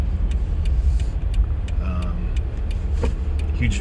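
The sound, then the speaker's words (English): Car interior while driving in traffic: a steady, loud low rumble of road and engine noise, with faint regular ticking on top and brief speech over it. “as noted, I'm in traffic and someone just did something really dumb”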